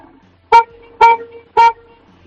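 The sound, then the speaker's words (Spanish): Three short car horn honks, loud and evenly spaced about half a second apart, each a bright, steady-pitched blast with the same tone and length, with quiet gaps between them. “Dale tres toquecillos cortos a ver cómo suena tu coche.”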